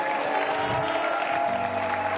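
A church audience applauds, a steady, fairly faint patter of many hands clapping that continues without a break for about two seconds.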